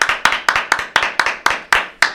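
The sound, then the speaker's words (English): An audience claps for a guest in an evenly timed rhythm. Nine sharp, loud claps fall at a steady quick pace with nothing else heard. “Let's give him another round of applause because he did that.”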